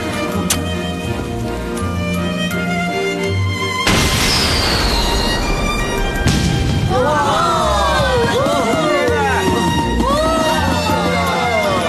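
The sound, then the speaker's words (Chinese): Fireworks going off in the soundtrack of a 1987 Cantonese animated series: dense, continuous crackling bursts with whistling sweeps that rise and fall, mixed with voices and other busy sound. “又嚟放烟花噶啦！ 好，放烟花”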